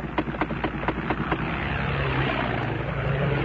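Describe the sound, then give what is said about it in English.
A World War I fighter aircraft engine gives a rough, loud droning roar. Quick rhythmic pulses at the start settle into a steady, noisy drone. “That's the way a fighting aircraft really sounded in World War I.”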